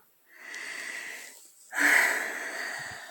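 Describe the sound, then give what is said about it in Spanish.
Two long, airy deep breaths, the second starting more sharply and sounding louder, with a slightly wheezy, hissing texture and no talk. “también hay momentos en los que hay que respirar profundo”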